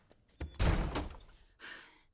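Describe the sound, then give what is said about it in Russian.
A door slams shut hard, jolting a small 'Welcome' sign hanging on it: one loud, heavy bang with a short knock just before it and a softer noise trailing after. “От сильного хлопка, висящая на двери табличка «Добро пожаловать», переворачивается.”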